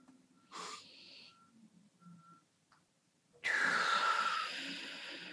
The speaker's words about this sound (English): Let go on those exhales.